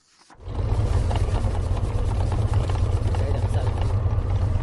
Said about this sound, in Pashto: دا د خوست ښار په یوه سرای کې د شیرنی جوړولو د یوې کوچنۍ کارخانې د تولیداتو د ماشینونو غږ دی.